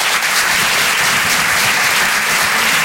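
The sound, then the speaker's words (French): An audience at the Apollo applauds a comedian at a stand-up comedy show. The clapping is loud, dense and continuous throughout. “On peut l'applaudir très fort également.”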